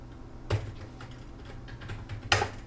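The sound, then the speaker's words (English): A few faint keystrokes on a computer keyboard, with two sharper clicks standing out among quieter taps. No one speaks. “I just type JAWS in the run dialog and it starts.”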